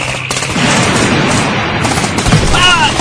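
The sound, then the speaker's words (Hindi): Gunfire in a radio war drama depicting a tank battle: loud, continuous, dense bursts of machine-gun fire roll on without pause. “Tank के नीचे fire करो जी जरूर वहाँ कोई है जो टैंक को आगे बढ़ने में मदद कर रहा है हमला करो जी जनाब हम पर हमला हो रहा है टैंक का मुंह खोल दो सब नीचे झुक जाओ फायर”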